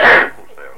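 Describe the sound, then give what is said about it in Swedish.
A single short cough, one loud harsh burst that drops away into a faint breathy tail. “Jag hostar”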